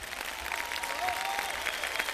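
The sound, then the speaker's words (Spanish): Audience applause at a live evening music performance: dense, steady clapping from many hands that holds at an even level from start to finish, with no break. “Un aplauso grande para ustedes.”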